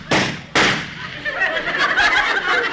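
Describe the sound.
Gunshots from a gun: two sharp, loud bangs in quick succession, each a brief burst that rings off briefly, followed by softer talk.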